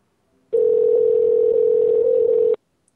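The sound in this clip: A telephone dial tone follows the dialing of a number: a single steady, unbroken tone that lasts about two seconds, heard alone and ending abruptly.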